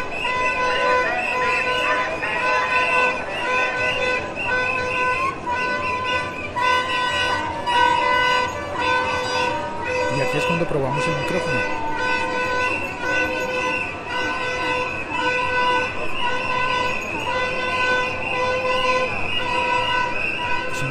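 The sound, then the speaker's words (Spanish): Car horns honk almost without pause as a street march of pensioners passes a workplace on its way toward a main plaza in Bogotá. The sustained, overlapping tooting stays loud over steady traffic rumble for the whole stretch. “hay una marcha pasando enfrente de mi trabajo.”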